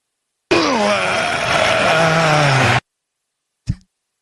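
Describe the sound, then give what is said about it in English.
A voice imitates the strained groan of riding a Peloton exercise bike: one long, drawn-out moan that sinks in pitch over about two seconds, then a short grunt after a pause. “this is the noise that you make when you're on the Peloton”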